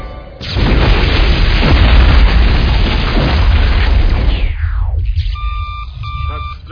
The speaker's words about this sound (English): The bomb was a dud, but the triggering charge blew out a 50-yard section of the pipe.